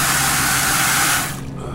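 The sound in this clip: Water is pumped from a utility truck's tank into a clear bucket, carrying visible particles: a steady, loud hissing rush of flowing liquid that tapers and thins near the end.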